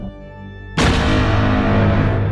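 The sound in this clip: An artillery or gunfire sound effect: a steady tonal hum suddenly breaks into one loud, deep blast that keeps rumbling and roaring at high level to the end.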